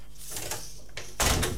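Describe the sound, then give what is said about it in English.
A door is pulled shut with a brief scrape and then a louder solid thud at the end, over faint steady background noise, with no talking. “Now, if you wouldn't mind just shutting the door.”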